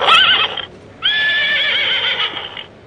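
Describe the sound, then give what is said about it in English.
A horse whinnies amid the ambient noise of a store: two loud whinnies, a short first call, then a pause and a longer second one with a wavering, vibrating high pitch. “You can hear, if you can hear the horse whinnying in the background, there's a lot of ambient noise in stores.”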